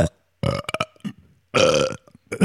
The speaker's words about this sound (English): Oh, I burped halfway through too. Let's see if you, can you burp?